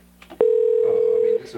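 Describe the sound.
A telephone tone as a number is dialed for a crank call: one steady, even beep holding for about a second, with faint noise before and after it.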